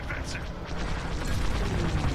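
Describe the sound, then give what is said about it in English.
Proton torpedo firing in a Star Wars space combat video game, a loud burst of rumbling booms and mechanical whooshing that swells and rolls on without pause. “Oh, that's the proton torpedo button. I think.”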